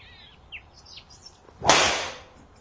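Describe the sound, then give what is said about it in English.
A golf driver striking a ball gives one sharp, loud crack that spreads into a bright burst and fades over about half a second. Faint high chirps come through before the hit. “Good drive. That was a good strike.”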